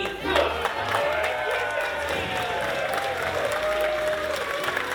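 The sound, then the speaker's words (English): Clapping and cheers from an audience at a comedy show greeting the master of ceremonies: moderate, steady applause with a few raised voices mixed in. “And now, make some noise for your monster of ceremonies, me!”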